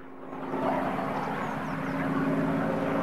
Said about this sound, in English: The single-engine plane rises in the air, then spins as it moves away from them.